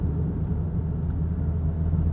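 Steady low engine and road rumble from a car while driving, a dense, even drone with no breaks and no voices.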